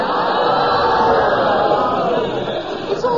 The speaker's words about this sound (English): We're all on his side. You don't have to shout for him like that.